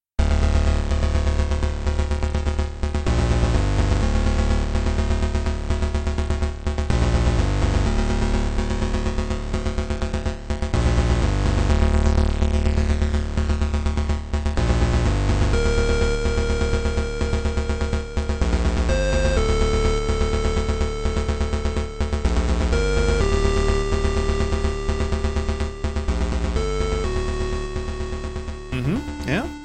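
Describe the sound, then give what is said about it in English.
Synthesized video game main theme music in its original Atari ST version, a loud, continuous chip-style track with pulsing bass and shifting melodic lines that plays throughout. “Atari ST and Commodore Amiga, and the original version of the game was created for the Atari ST. So this was probably the original iteration of the main theme, and that sounds like this.”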